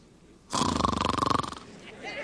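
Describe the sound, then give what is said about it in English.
A voice imitates a snore, one drawn-out rattling snort made of rapid fluttering pulses that lasts about a second before trailing off. No words are spoken. “He was sound asleep. Thunder roared and Jesus snored.”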